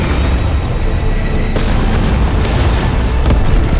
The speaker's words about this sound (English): She pushes a button she holds and the bag explodes.